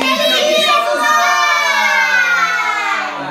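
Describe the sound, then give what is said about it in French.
Children in a family shouting a Father's Day greeting together: loud, sustained shouted voices whose pitch slides gradually downward over a few seconds, then ease off slightly at the end. “la famille, il y a les enfants, ils crient”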